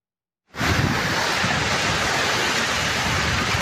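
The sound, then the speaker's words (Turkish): A heavy downpour with strong wind over the city of Adana makes a dense, steady roaring hiss. It cuts in abruptly after half a second of silence and holds without change. “Adana'da öğle saatlerinde başlayan sağanak yağış ve kuvvetli rüzgar kent genelinde hayatı olumsuz etkiledi.”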